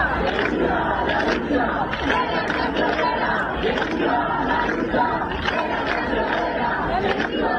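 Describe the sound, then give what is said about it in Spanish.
A street protest crowd of about 600 people in Murcia rallies against evictions and housing prices, chanting and shouting in repeated rhythmic bursts over a constant hubbub of chatter. “Anoche unas 600 personas salieron a la calle en Murcia contra los desahucios y el precio de la vivienda en la tercera movilización celebrada en menos de una semana.”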